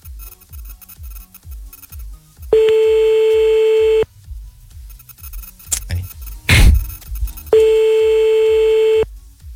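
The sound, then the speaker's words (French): Telephone line tones as a call is redialled: two long, steady, even tones separated by clicks and a short noisy burst, with faint low ticking underneath and no talk. “Bon, allez, attends. Hop, c'est parti, on rappelle.”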